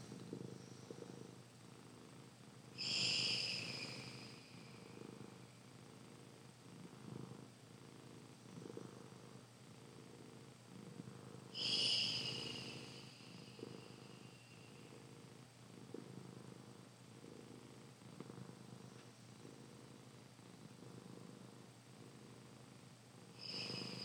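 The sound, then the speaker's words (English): Ujjayi breathing during a throat-chakra meditation, a soft, raspy, ocean-like hiss with a purring texture that swells and fades over a few slow, drawn-out breaths, faint throughout. “Three Ujjayi breaths.”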